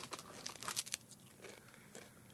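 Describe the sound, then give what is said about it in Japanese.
Crisp crunching of sweet-flavored potato chips dusted with a white powder: several irregular bursts of crackly biting and chewing, faint and without talk. “いい音。 うん。うん。甘い。 甘い。甘い。あ、甘いポテトチップス。”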